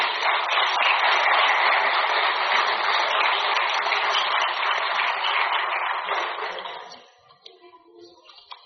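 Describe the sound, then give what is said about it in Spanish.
Applause from a church audience for Jesus Christ during a sermon: thin, dense, steady clapping fills about seven seconds, then stops abruptly, leaving near quiet. “Denle un aplauso al Señor Jesucristo.”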